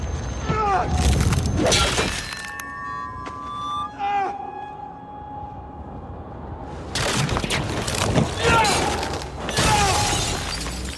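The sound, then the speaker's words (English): A fantasy TV battle scene in which Jon Snow kills a White Walker with the Valyrian steel sword Longclaw: loud clashing bursts and a sharp icy shattering, eerie high tonal screeches, and a quieter stretch in the middle before the clashing resumes. “I'm going to play a clip from a fight with the White Walker War at the end of season 5.”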